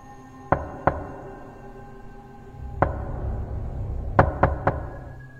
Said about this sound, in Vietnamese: tiếng gõ cửa lại vang lên rất rõ, có vẻ như gấp gáp.